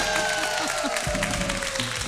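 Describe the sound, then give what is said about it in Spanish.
Audience applause greets a band arriving on an auditorium stage, a steady wash of clapping with soft music playing beneath it. “Además de la banda, miren, aplausos.”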